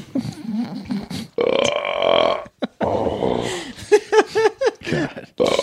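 Loud burping from a man with a bloated, stuffed stomach: a long, drawn-out low belch, then a few shorter, choppier burps and grunting bursts, separated by brief pauses.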